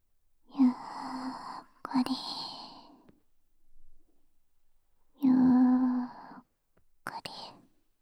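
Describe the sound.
Slow, deep breathing with long, voiced, sigh-like exhales, in two drawn-out breath phrases separated by quiet pauses.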